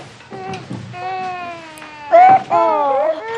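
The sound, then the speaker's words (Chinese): Baby crying in a home while adults try to soothe it: a run of wavering, tonal wails that swell into a louder, strained burst near the end. “不哭了不哭了”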